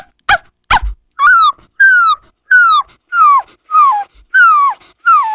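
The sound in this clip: A human voice imitating a puppy in a school mimicry performance: two sharp clicks, then seven evenly spaced, high whimpering yelps, each sliding downward in pitch.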